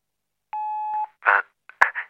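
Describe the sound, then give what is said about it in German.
A radio time signal beep: one long, steady electronic tone at a fixed mid pitch, sounding alone for about half a second, then followed by a few brief, rougher bursts of sound. “Beim nächsten Ton ist es 16 Uhr, 10 Minuten und 33 Sekunden.”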